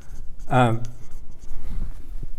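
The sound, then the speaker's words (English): Handwriting of a single word, with scratchy strokes across the writing surface that run through the whole moment at a steady, fairly even level. “So I just want to write, I'm going to write tassels here because we'll come back to tassels.”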